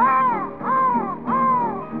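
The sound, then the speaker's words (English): Three loud, harsh crow caws, each a drawn-out call that dips slightly in pitch, separated by short pauses. “Saw the old crow and the old crow call,”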